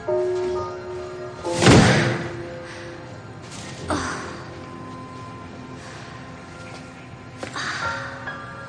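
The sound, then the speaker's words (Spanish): A large cardboard box dropped onto a garage floor lands with one heavy, hollow thud, followed later by two softer knocks over a faint steady background. “Luego camina de nuevo por el garaje, portando una gran caja de cartón. Agotada, deja caer la caja al suelo y casi sin fuerzas se apoya sobre ella.”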